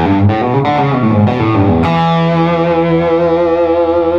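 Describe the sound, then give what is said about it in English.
Distorted electric guitar on the bridge humbucker pickup plays a few quick, gritty notes, then a thick chord rings out and sustains loudly to the end. “So, this would be the humbucking setting in the bridge position. A little bit more hair on it.”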